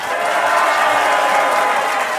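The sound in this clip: A studio audience at a TV game show applauds and cheers as contestants are welcomed, a loud, continuous, even roar of clapping with no break.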